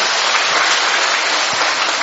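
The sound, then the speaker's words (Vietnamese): Loud, dense applause from a church audience cheering children about to receive first communion and first confession, a steady unbroken wash of many hands clapping throughout. “một tràng pháo tay thưa anh chị em.”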